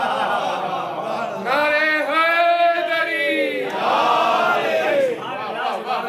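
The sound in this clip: A crowd of voices chants a religious slogan together at a religious gathering, a loud, sustained collective shout that swells in two long phrases over several seconds.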